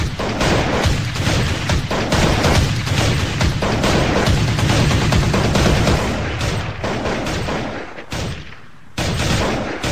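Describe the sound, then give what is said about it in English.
Gunfire in a multiplayer shooting video game: loud, dense bursts of rapid shots and heavy booms that keep going almost without a break, briefly thinning near the end. “There's a lot of shooting.”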